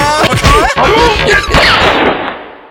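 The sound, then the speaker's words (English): A gunshot fires in a loud burst of a few sharp cracks at the start, followed by a long, noisy, ringing decay that fades out gradually. “Did you just shoot me? Where'd you get a gun from?”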